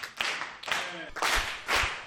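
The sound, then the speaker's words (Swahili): Hands clapping in a classroom as students applaud a correct answer, with a few sharp, bright bursts of clapping spaced out in a loose rhythm, with voices faintly mixed in. “Hebu tupigie makofi basi.”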